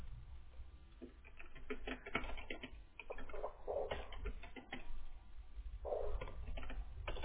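Someone types out a name to sign for a card payment, making a quick, irregular run of many light clicking key taps. The taps are fairly faint and stay steady throughout, with no talk over them.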